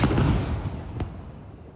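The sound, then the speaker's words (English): An Israeli fighter jet airstrike on a residential building near Al-Aqsa Hospital in Deir al-Balah, central Gaza, heard as a heavy booming rumble that slowly fades, with one sharp crack partway through. “This is the moment Israeli fighter jets struck a residential building near Al-Aqsa Hospital in Deir al-Balah in central Gaza.”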